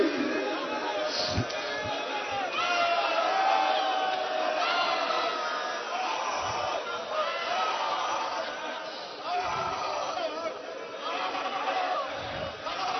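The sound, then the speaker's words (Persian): A crowd of mourners at a religious mourning gathering shouting and weeping "Ya Hussein", a loud, sustained mass of voices that swells and dips but never drops away. “شما فریاد بزنید یا حسین را گریه کنید”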